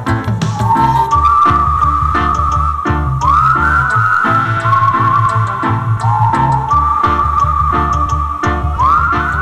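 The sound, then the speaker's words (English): A crowd whistles at a reggae soundclash dance in Wiesbaden, Germany, with sharp, shrill whistles that repeat and slide in pitch. They ring continuously over loud music with a deep, pulsing bass line. “Anybody know how to whistle? Make we whistle Firewheel out of the dance.”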